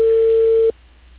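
A steady, single-pitched telephone line tone after a dropped call, loud and unbroken for under a second before cutting off abruptly and leaving faint line noise.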